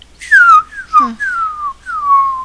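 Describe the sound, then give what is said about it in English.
Small whistling fireworks give a few shrill whistling tones, each gliding downward in pitch. The tones are loud, with short gaps between them and no talking. “there's fireworks there. There's like little, they're like some kind of little fireworks that make those type of sounds, you know, little whistling things.”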